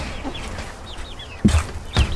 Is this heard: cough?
no